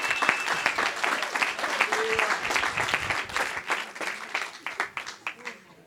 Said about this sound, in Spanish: Alguien aplaude la gloria de Dios. Some give God praise.